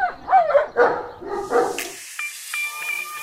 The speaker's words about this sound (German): Da freut sich auch der Vierbeiner an der Leine.